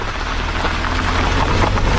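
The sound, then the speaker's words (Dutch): Heavy rain pours down in a cloudburst as a car drives onto prison grounds: a steady, dense hiss of rainfall with a low, constant rumble underneath, loud and unbroken, with no talk. “Als we de auto het gevangenisterrein oprijden, slaat de regenbui om in een wolkbreuk.”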